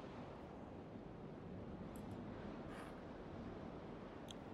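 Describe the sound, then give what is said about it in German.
A river rushes with a continuous, faint, even hiss of flowing water that neither swells nor breaks. “Was dir allerdings auffällt, ist, dass der Fluss plötzlich anfängt, viel stärker zu rauschen.”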